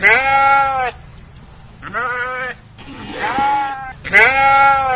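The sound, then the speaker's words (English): Young woolly lambs bleat in a winery vineyard, giving four loud, wavering bleats one after another with short pauses between them and no talk. “Instead, the job is done by 40 cute little woolly lambs.”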